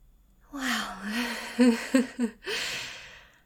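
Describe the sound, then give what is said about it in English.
Heavy breathing from a person catching their breath: ragged inhales and exhales broken by a few short voiced gasps and sighs in quick succession, moderately loud, with no words spoken. “Oh God, just let me catch my breath.”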